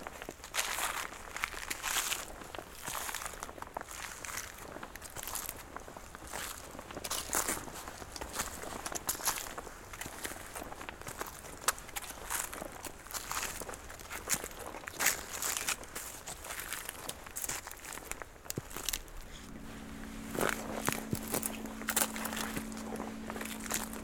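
Slow footsteps of people walking in a wild valley, many soft crunching steps over a steady background hiss, with a low steady hum joining near the end.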